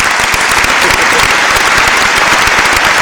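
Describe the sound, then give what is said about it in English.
Loud, dense applause from many hands clapping at once, a steady crackling roar that holds at an even level for about three seconds without pause. “Get the applause ready.”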